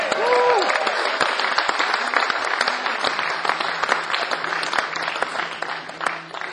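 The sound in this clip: Audience applause for performers at a Johnny Cash tribute show: dense, steady clapping throughout, with a brief whistle at the start and the sound thinning slightly toward the end.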